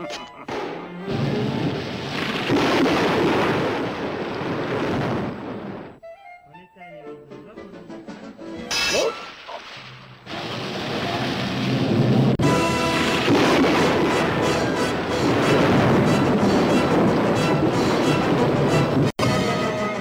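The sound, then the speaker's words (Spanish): A machine-made artificial thunderstorm in an animated cartoon, heard as loud, sustained roaring and crashing rumbles that break off into a brief lull, then return heavy and dense until the end. “Tormenta artificial, AK-9. Provocaré una tormenta tan fuerte sobre la casa de ese perro que no querrá salir en una semana.”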